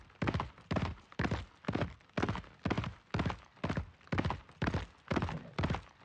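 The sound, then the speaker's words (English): Horses' hooves gallop across the wooden planks of a bridge, producing many sharp, hollow clip-clop beats in a steady, even rhythm at a constant loud level. “The horses thundered across the planking of the bridge and out the gate”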